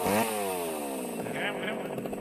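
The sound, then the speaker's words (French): A small, low-powered engine runs with a buzzing whine that drops in pitch at first, then holds steady while a voice talks over it. “Là, celle-là, c'est un petit moteur. C'est pas très puissant.”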